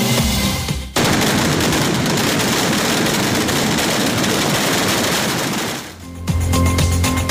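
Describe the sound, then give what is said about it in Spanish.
A kilometre-long string of firecrackers explodes at a patron saint festival in Xeraco, Spain, as a dense, continuous roar of rapid crackling bursts that runs loud for about five seconds before tapering off. “este es el sonido de la espectacular traca kilométrica que se lanzaba ayer en las fiestas patronales de Xeraco”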